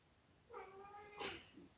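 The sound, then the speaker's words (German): A tomcat going wild with a yowl: a faint, drawn-out, wavering wail that swells into a harsh, noisy burst, followed by a short low sound, with no talk over it. “ich weiß nicht, ob man das hört, aber hier dreht gerade der Kater völlig durch.”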